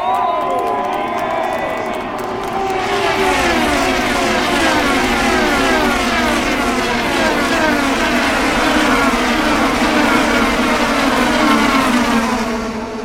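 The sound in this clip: IndyCar race cars tear past at around 230 mph during the 2022 Indianapolis 500 at Indianapolis, a loud, continuous engine roar layered with many overlapping high whines that sweep down in pitch as cars pass in quick succession.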